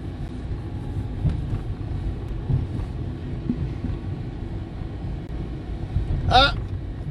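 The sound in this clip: Steady low road rumble from inside a car while the speaker drives, a dull continuous hum running under the conversation, with a short brighter burst of noise near the end.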